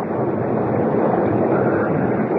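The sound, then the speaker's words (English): A storm's wind and rain make a steady, loud rushing roar with no separate events, holding at the same level throughout. “Well, it's crazy to stay out in a storm like this.”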